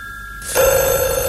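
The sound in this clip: Telephone bell ringing: a bright, metallic ring that begins partway in, cutting sharply over a quiet background, and sustains with a dense buzzing tone to the end.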